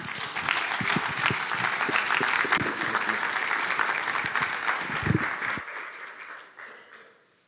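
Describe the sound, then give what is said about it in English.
Applause from a church audience welcoming a guest to the front, dense and steady clapping that holds for several seconds before tapering off and fading out at the end. “Please put your hands together and welcome Jay Henry.”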